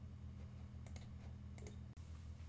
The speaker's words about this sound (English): So I'll go ahead and click continue.